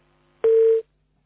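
A single short telephone beep marks a caller's line connecting, a steady pitched tone lasting under half a second in otherwise quiet surroundings.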